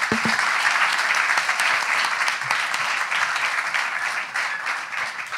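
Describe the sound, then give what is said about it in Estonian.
Audience applause: steady, dense clapping at a moderate level throughout, easing slightly toward the end. “teeme aplausi selle meile, super.”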